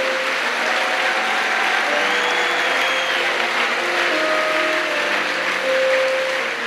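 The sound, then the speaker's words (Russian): A church audience breaks into loud, continuous applause, a dense wall of clapping sustained at even strength, with faint steady tones running underneath. “Давайте Господу аплодисменты.”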